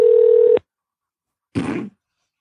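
Telephone dialing tones for a number: a steady mid-pitched tone holds for about half a second and cuts off sharply. After a short silence comes a brief, rougher burst of noisy sound that also ends abruptly.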